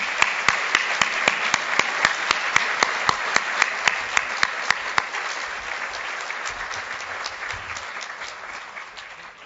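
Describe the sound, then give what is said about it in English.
Audience applause greets federal finance minister Bill Morneau at a speaking event, a dense, steady wash of many hands clapping, with a few sharp individual claps standing out early, slowly fading toward the end. “And would you please join me in a warm welcome to our federal finance minister, Mr. Bill Morneau.”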